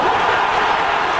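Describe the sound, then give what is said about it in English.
Basketball fans cheer loudly inside an arena during a playoff game in Cleveland, a dense, steady roar of crowd noise with no breaks. “That's the sound of Knicks fans drowning out the home faithful in Cleveland at Rocket Arena”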